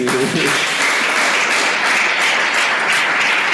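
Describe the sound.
A church audience applauds in praise during a French-language sermon, a loud, thick and steady roar of many hands clapping that carries on unbroken throughout.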